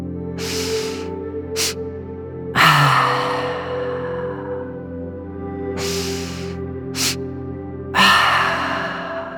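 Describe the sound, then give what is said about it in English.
A breathing exercise demonstrated twice: a double inhale through the nose, the second sniff sharper and quicker, then a slow, drawn-out exhale through the mouth, over a steady low tonal drone. “in through your nose. Then a second, sharper, quick inhale through the nose. And then lastly, a slow exhale through your mouth. Let me demonstrate how it sounds.”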